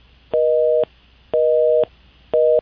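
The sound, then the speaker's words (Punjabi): A telephone busy signal sounds after a dropped phone call. It gives three steady, loud, even-pitched tone bursts separated by equal gaps, and the last burst is cut short. “Jasvir ਭਾਈ ਹੁਣਾਂ ਦੀ ਜਿਹੜੀ ਕਾਲ ਉਹ drop ਹੋ ਗਈ ਆ”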